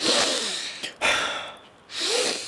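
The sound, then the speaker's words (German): Deep, noisy breaths drawn in of salty air, a few long breathy inhalations separated by brief pauses, loud and close with no speech. “Du musst herumgehen und die salzige Luft einatmen. So etwa?”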